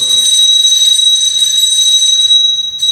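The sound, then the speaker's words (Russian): A bell rings continuously with a shrill, piercing metallic tone. It stays loud and unbroken for almost the whole clip, with only a momentary dip near the end. “То, что зазвенел звонок, ну вот.”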